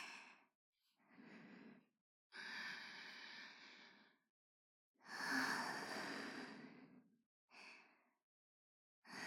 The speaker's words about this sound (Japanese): 一回、深呼吸させて。